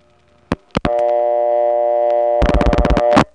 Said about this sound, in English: Now here's one going into a 701 PBX. The same type of PBX as DeKalb County, but the access is different because it's going through a crossbar 5 office. I'll be dialing a 572 number.